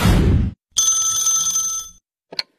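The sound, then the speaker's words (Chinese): A telephone rings for an incoming call with one bright, sustained electronic ring lasting about a second. A short, sharp blip follows it. A brief burst of broad noise comes before the ring. “这天呢，小何跟佳佳正看电视呢，小何的表弟打来了电话。”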